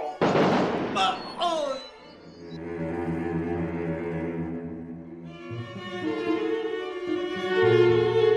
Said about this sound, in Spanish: ¡Atención, pelotón! ¡Preparen! ¡Apunten! ¡Fuego!